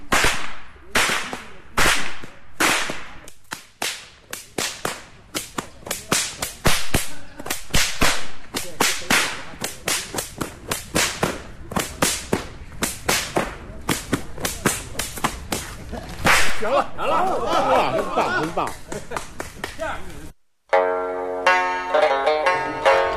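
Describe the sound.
Loud, sharp whip cracks fire off in rapid succession, a long run of snapping reports that grows denser toward the end before a brief break.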